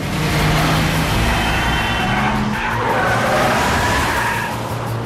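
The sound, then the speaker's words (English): Tires screech as a Mercedes, pushed into the path of a huge truck, skids and spins, a loud continuous squeal layered over steady engine roar throughout. “Mercedes is pushed into the path of a huge truck and spun like a toy.”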